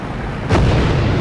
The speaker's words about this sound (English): An explosion breaks a wing from the plane.